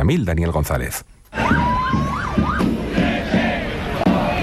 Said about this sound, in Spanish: este es el sonido de una marcha que ha vivido sus momentos de mayor tensión al final del recorrido